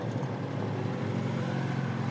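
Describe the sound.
An ATV loaded with bin bags drives off, its engine giving a steady, low droning hum with no voices.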